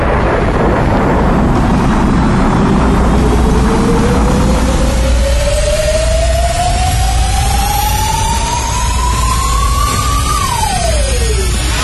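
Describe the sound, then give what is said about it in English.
A sci-fi spaceship engine roars as the ship blasts off into outer space: a loud, dense rumble with a whine that climbs slowly for several seconds, then drops sharply near the end. “the ship blasts off and rockets into outer space”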